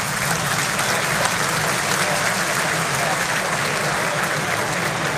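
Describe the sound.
Crowd applause fills an arena at Nordis, a dense, steady wash of clapping that holds at an even, loud level throughout with no breaks.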